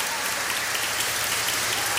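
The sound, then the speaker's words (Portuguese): Applause for the mothers fills the whole stretch, a dense, steady patter of many hands clapping at an even, fairly loud level with no breaks. “Uma salva de palmas bem bonito para as mães.”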